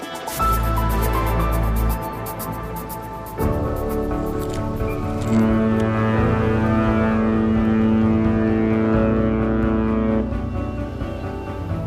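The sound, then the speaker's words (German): Deep cruise ship horn on a two-week voyage from Kiel to Lisbon across the Atlantic, a loud, sustained blast of layered tones lasting about twelve seconds, its chord shifting a few times, sounding alone without talk. “Wir sind auf Kreuzfahrt heute inzwischen Hamburg und Haiti mit Udo Schmidt. Wir starten in Kiel und landen in Lissabon, zwei Wochen vor allem durch den Atlantik also.”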